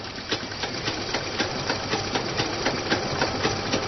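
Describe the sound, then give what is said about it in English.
Sewing machines run as women train on treadle and electric models, making a steady mechanical whir with a quick, regular ticking rhythm throughout. “These women are getting trained on 2 kinds of sewing machines.”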